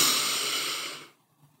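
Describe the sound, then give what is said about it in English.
A slow, deep breath drawn in during a meditation exercise, heard as a soft, airy hiss that holds for about a second and then fades into near silence. “just take a deep breath in”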